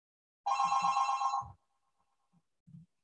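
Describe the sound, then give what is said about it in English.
A telephone rings during a class: one bright, buzzy electronic ring burst lasting about a second, followed by near silence and a couple of faint, soft low thumps. “Dogs barking, phones ringing, class is apparently over.”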